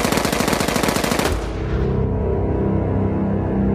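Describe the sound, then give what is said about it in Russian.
A burst of automatic rifle fire, half a magazine emptied in one go, rattles out as a fast, dense string of loud shots lasting just over a second, then trails off into a lingering low rumble. “Старатель вскинул автомат к плечу и выпустил пол рожка по людоеду.”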